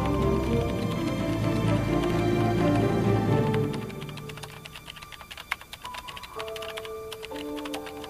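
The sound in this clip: Typing on a computer keyboard, a quick, irregular patter of light key clicks under sustained music that thins out midway, leaving the tapping more exposed.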